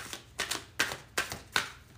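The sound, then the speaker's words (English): Tarot cards being drawn from a deck for a reading: a few short, papery snaps and slides, spaced at fairly even intervals. They are faint and crisp, with no voices over them. “And I'm gonna pull one more motherfucking card, and that'll be that for this reading.”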